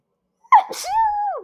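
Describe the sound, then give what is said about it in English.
A single sharp sneeze bursts out suddenly, then trails into a drawn-out voiced tone that holds steady before fading, with nothing else around it. “Oh God, guys, I had to sneeze.”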